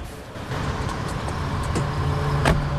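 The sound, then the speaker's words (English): An SUV drives off from a lakeside house and later pulls up outside an office block. A steady engine and road rumble runs throughout, growing slightly louder after the first half-second, with a brief sharp knock near the end. “Karen drives the SUV away from her lakeside house and pulls up some time later outside an office block.”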